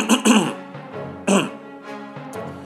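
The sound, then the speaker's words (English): A few raspy, gravelly throat clears come in quick succession, loud and abrupt, with short voiced sounds in between. “the awkward throat clear”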